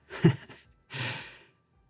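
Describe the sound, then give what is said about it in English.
A deep breath taken during a calming pause: two soft, airy breath sounds, each lasting about half a second, separated by a brief gap, then quiet. “Ooh, take a deep breath, be here.”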